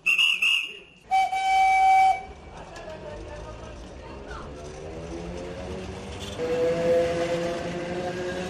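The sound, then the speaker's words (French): Two blasts from the compressed-air whistle of a historic electric train with a 1910 air compressor. A short, high blast is followed by a longer, lower one, then a quiet, steady rolling rumble as the train departs. “Ce compresseur, il sert donc à fournir l'air pour les freins et pour le sifflet. Une fois la réserve d'air comprimée remplie, c'est le départ, quasi silencieux.”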